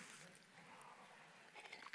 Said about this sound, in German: Ich brauche erstmal einen Schluck Wasser, ja.